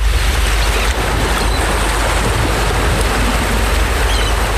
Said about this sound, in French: Nous sommes toujours au bord de la mer.